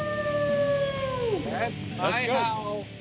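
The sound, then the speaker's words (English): A human voice imitates a howl with reverb added: a long, smooth, falling tone gives way to a couple of wavering, yelping cries, all trailing into an echoing tail. “Ow, ow, ow! That's my howl with some reverb”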